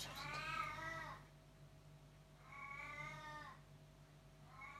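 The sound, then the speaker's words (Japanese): A cat in heat yowls outside on the road with long, wavering, strongly harmonic wails. There are two drawn-out calls and the start of a third, fairly faint over a steady low hum. “うわ、すごい盛りのついた猫、 猫、”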